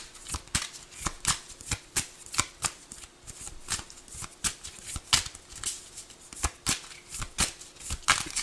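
Tarot cards are shuffled in many crisp, rapid riffles in a fairly regular rhythm, each a sharp papery burst, with no talking.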